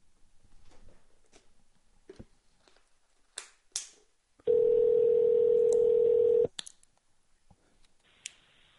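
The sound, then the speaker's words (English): Telephone call sounds: scattered clicks and ticks from the handset, then one steady ringing tone that holds for about two seconds and cuts off. More clicks follow, and a fainter tone starts near the end. “Your call has been forwarded to an automatic voice. First ring voicemail, lovely.”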